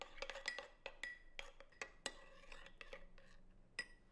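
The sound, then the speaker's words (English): Spoon clinking against a bowl while dried oregano and garlic powder are stirred into pizza sauce, with many quick, irregular metallic taps and scrapes, quiet and without voices. “half a teaspoon of dried oregano, and 1/4 teaspoon of garlic powder. Now mix all that together.”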